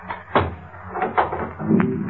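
A door being locked at night gives a few soft clicks and knocks from the latch, spaced apart over a low background hum.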